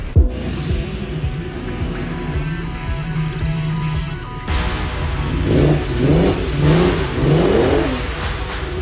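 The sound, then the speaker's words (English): A car engine revs. It holds a steady mid-pitched drone at first, then a few repeated revs swell up and fall back, loud and without talk. “Those car sounds you heard”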